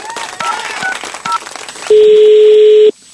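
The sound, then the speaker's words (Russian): A telephone number being dialled to place a call: a few short tone beeps, then a loud, steady, mid-pitched tone held for about a second before cutting off. “давайте мы прямо сейчас и позвоним”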